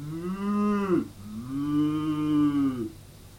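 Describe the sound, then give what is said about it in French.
A cow moos twice: a deep, resonant low first call of about a second, then a longer, drawn-out second moo, both loud and alone. “les vaches faisaient”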